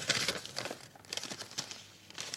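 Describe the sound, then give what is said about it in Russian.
Paper crinkling and rustling as an envelope holding a letter is opened, several short, crisp bursts of crackle spread across the moment, with no voices. “В букет был вложен конверт. Письмо.”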